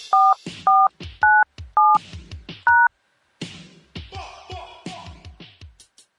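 Five telephone keypad tones enter a conference code, each a short steady beep of the same length separated by brief gaps, two of them pitched slightly higher than the rest; softer, irregular sounds follow after a pause.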